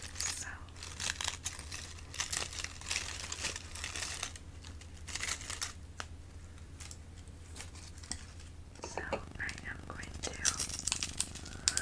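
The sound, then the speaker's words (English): Flower petals are torn apart by hand in soft, crinkly rips and crunches. The rustling bursts are quiet and close, repeating many times at an irregular pace. “Rip a piece off and throw it in. And I'm just gonna rip the petal off, throw it in,”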